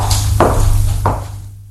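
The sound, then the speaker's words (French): Two dull knocks on a wooden door in a dark hallway, spaced well apart over a steady low hum. “frappe à la porte”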